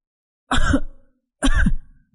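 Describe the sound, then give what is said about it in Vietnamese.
Two harsh, loud coughs from someone coughing up blood while gripping a painful chest, spaced about a second apart. Each cough has a raspy, fading tail, and nothing else is heard around them. “Phong ho ra máu. Sau mỗi tiếng ho, máu từ miệng Phong cứ thế bắn xuống nền nhà mỗi lúc một nhiều.”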